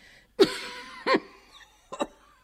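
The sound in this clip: Harsh, voiced coughing from a character with a worsening cold in a stage play: three short, fairly loud bursts spaced apart, the last split into two quick hacks, with no talk.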